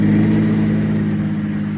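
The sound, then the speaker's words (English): A car drives down a hill in the rain at night, its engine making a steady, loud low drone with a humming tone that eases off only slightly toward the end. “When I saw the headlights of a car coming down the hill, I ducked behind the tree.”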